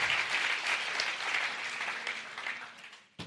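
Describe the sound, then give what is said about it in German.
Audience applause at a church anniversary service, dense steady clapping throughout that dips briefly at the very end, with no talk over it. “Applaus.”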